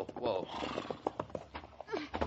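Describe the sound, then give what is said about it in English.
A horse whinnies with a rising and falling neigh, then hooves clop in a few sharp, irregular beats as it is led at a weak, rope-held bridge at night with pack animals. “Hold my horse. I'll lead the pack animals across on foot.”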